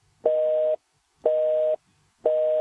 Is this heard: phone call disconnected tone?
yes